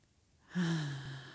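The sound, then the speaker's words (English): A deep breath taken during a children's mindfulness exercise: one long, breathy inhale and exhale with a slight voiced hum, starting after a short pause and fading slowly. “Take a mindful breath.”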